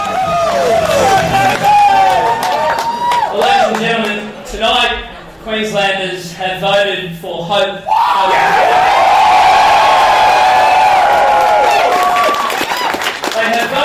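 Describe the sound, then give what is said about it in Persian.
Volunteers cheering at Queensland Liberal National Party headquarters on Saturday night for leader David Crisafulli, set to become the state's 41st premier: a loud crowd of whoops, yells and applause that dips briefly, then surges back into a sustained roar. “شنبه شب در مقر حزب ملی لیبرال کوینزلند، داوطلبان رهبرشان دیوید کریسافوری را که قرار است 41مین نخست وزیر ایالت شود تشویق کردند.”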